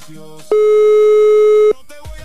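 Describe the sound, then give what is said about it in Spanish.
Telephone ringing tone on an outgoing call: one steady, mid-pitched electronic tone holds for a little over a second, with brief faint sounds just before and after it. “Siguiente llamada, mi secre, dele play. Ahí está timbrando.”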